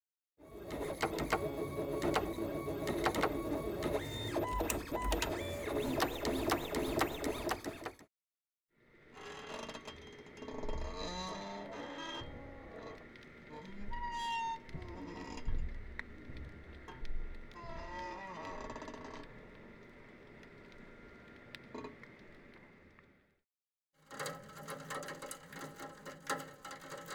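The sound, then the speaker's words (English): A vintage Roland pen plotter drawing in a university office: dense mechanical whirring and buzzing in three stretches separated by brief pauses, with shifting whines and clicks in the long middle part. “in order, a vintage Roland pen plotter I recorded in Professor John McCormack's office at Monash University in 2012.”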